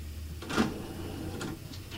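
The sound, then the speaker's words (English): CD tray opening or closing: a faint mechanical whir with soft clicks, heard as two brief bursts of motor and plastic movement against a quiet background. “I just heard a CD tray. What are you doing? That sound is the CD tray, because once again, we don't need Spotify.”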